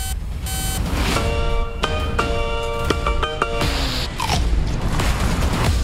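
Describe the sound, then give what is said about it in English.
Opening of the Hobbs and Shaw movie trailer: loud electronic beeps and ringing tonal pulses over a heavy low rumble, punctuated by a few deep booms and mechanical creaks. “But let's take a little look at Hobbs and Shaw because earlier on the year, this was one of our favourite trailers so far. So let's take a wee sneak peek.”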